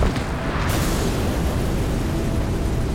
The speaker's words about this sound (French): Et comme par hasard, 6 mois plus tard, l'auberge dans laquelle il passe la nuit... Oh, explose.